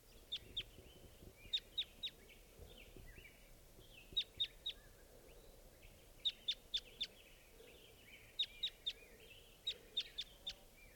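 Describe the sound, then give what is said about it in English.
A wild bird calls in short bursts of high, thin chirps, usually two to four notes each. The bursts repeat about six times over a faint, steady low background hum. “There's a wild bird here. Wild bird.”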